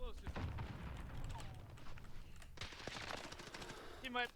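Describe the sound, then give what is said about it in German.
Rapid gunfire in an online shooter video game: many sharp, fairly quiet shots come in bursts throughout, and a player's voice talks over them. “Ich wurde noch beschossen, von der Seite, vom Berg, von rechts irgendwo hier oben.”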